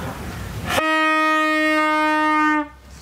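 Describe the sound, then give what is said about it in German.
A medieval night watchwoman's horn gives one long, loud, steady note rich in overtones, held for about two seconds after a brief burst of noise. “hat hier so ein Horn. Was ist denn das für ein Horn eigentlich? Und das macht einen Ton.”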